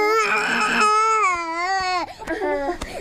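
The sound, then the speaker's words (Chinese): A sick infant cries inconsolably in long, loud, wailing sobs, sustained for about two seconds before breaking into shorter, uneven cries. “哦，谁抱都哭，这孩子。 那小孩哭不是正常的吗？”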